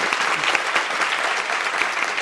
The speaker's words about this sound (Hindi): सब गोपियां जैसे आप तालियां पीट रही है, सब तालियां पीट रहे हैं, तालियां लगाओ, बजाओ बजाओ